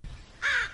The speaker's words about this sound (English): What's that? That's the sound of crow.